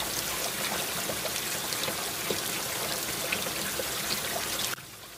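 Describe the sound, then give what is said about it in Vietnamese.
Heavy rain pours down in a steady, dense hiss scattered with small drip-like patters. It stays loud and even, then cuts off abruptly just before the end. “Đột nhiên trời đổ mưa rất lớn.”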